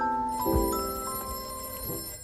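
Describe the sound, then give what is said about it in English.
A telephone rings with a steady, fairly quiet bell tone that holds evenly for about two seconds, with no voices. “Does it feel good to learn things? It does for me. Oh, there's the phone.”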